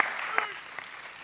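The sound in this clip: Short burst of audience applause welcoming a speaker at a Mother's Day church service, a few sharp claps standing out before the clapping thins and fades within about a second.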